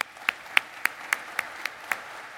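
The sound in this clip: Claps from a church audience welcoming a pastor to the stage, about eight crisp, evenly spaced claps in a steady rhythm over a quiet background.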